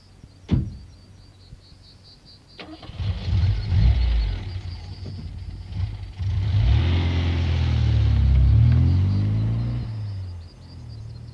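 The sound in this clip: A car engine starts and drives away: a brief click, then a low rumble that builds and swells with wavering engine tones, easing slightly at the end.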